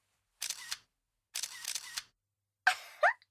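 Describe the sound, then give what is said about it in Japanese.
Camera shutter firing as a photo is taken, with a few separate bursts of crisp mechanical clatter separated by short silences. “いい感じに撮れましたよ。先輩にも見せてあげますね。”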